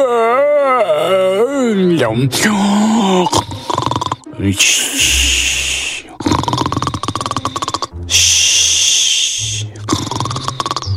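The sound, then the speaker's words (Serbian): A voice imitates a wolf snoring in a Red Riding Hood fairy tale, after the wolf has eaten and fallen asleep: loud, rasping, drawn-out snores, several in a row, after a brief wavering vocal sound. “Nakon što je zadovoljio glad, vuk je zaspao i počeo da hrče.”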